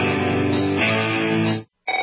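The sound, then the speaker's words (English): A telephone rings with a buzzy, harmonic-rich ring for about one and a half seconds, falls silent briefly, then starts ringing again. “Don't answer it. If fear strikes your heart when the phone rings, knowing it may be another bill collector, it's time for you to call Zero Debt in 90 Days.”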